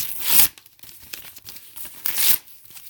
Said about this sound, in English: And now the ceremonial ripping of the notes.